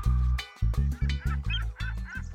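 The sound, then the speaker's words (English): Honking bird calls, said to come from a toucan and a swan at a party, repeat in a fast, steady series of many loud, nasal bursts. “So many beautiful birds are here at the party.”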